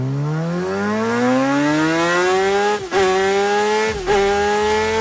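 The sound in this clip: A MotoGP racing motorcycle engine screams with a loud, high-pitched whine that climbs steadily in pitch. Two brief dips in pitch and loudness interrupt it before the rise resumes.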